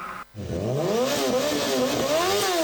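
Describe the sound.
A motorcycle engine revs loudly and alone, cutting out for a split second before it climbs in pitch, then it keeps revving with wavering surges.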